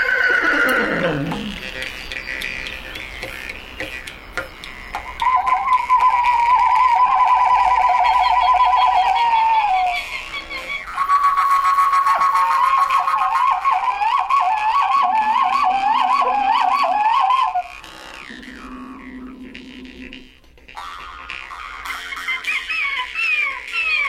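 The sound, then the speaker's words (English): A jew's harp twangs as two young Saka herders imitate animals of the frozen steppe. Wavering, whinny-like buzzing tones and rapid warbles alternate with lower droning passages in one long, continuous performance. “Ted Levin and Joel Gordon recorded two young Saka tribesmen who took a break from their herding chores to play a little bit of jew's harp and imitate the animals that inhabit the frozen steppes.”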